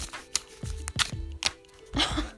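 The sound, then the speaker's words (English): Tarot cards are shuffled and a single card is drawn. Several crisp, papery flicks and snaps come in quick succession, ending with a slightly longer ruffling sweep. “Hey, let me pull a tarot card for you.”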